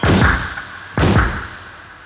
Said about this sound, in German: Achtung, die Türen zu!